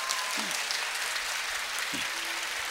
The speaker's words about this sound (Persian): همه این دستا رو بالا بیاریم، یک کف مرتب بزنیم.